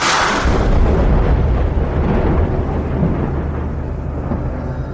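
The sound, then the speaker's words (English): A thunderstorm pounds a field of crops beside a dirt road. Loud, continuous deep rumbling roars throughout, with a heavy wash of rain-like noise, easing only slightly toward the end. “He watched the thunderstorm pummel the field of crops directly across the dirt road from him.”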